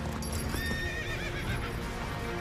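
Exhausted horses haul a heavy delivery up a steep hill over frozen ground, hooves clopping steadily under a continuous rumbling din, with a whinny breaking through partway.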